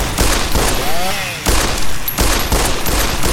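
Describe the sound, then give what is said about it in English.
Gunfire in a video game as enemies shoot at the player: a dense, continuous barrage of loud crackling shots runs through the whole clip, with a brief dip near the middle. “Taking a ton of damage, but man, now they're all shooting at me.”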